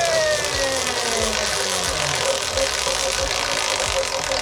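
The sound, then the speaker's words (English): A big spin of a prize wheel in a quiz game: a series of irregular ratcheting ticks from the wheel's pawl sounds over a loud, steady mechanical hum. “Let's spin the wheel here, mate. Do you want a big spin or a little spin to choose the category? Big spin, please. Here we go. Big spin.”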